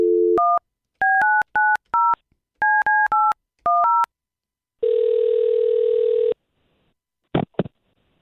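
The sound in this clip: Touch-tone telephone keypad dialing as a call is placed: a short low tone, then a quick run of paired dialing beeps in uneven bursts, followed by a sustained buzzing tone and a couple of faint clicks.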